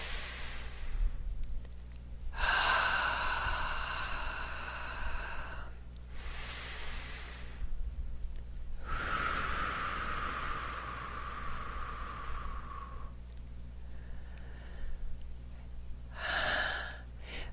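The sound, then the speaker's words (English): Slow, deep breathing during a guided relaxation exercise: a drawn-out airy inhale and a longer, steadier exhale, followed by further soft breaths, unhurried and quiet with no talking. “Okay, nice deep breath.”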